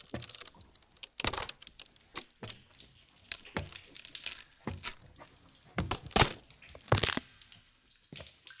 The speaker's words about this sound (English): The stairs crack beneath my feet.